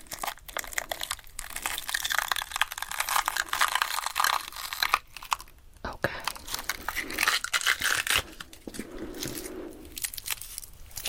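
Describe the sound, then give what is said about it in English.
Layers of a fresh onion being peeled by hand make crinkly tearing and crackling sounds, repeated over and over under a person talking. “peeling and peeling, you'll see we've got layers underneath.”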